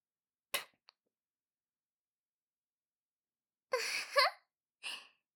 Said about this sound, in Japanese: そろそろ唾液がたまりましたから、早速唾吐いてあげますね。ほら、ちゃんと顔面で受け止めて。いきますよ。